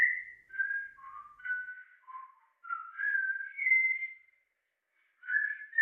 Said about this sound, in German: Der pfeift sich ein Liedchen.